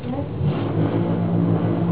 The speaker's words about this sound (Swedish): Det är en jävla vaskemaskin som går. Ja, men det är en vaskemaskin som går.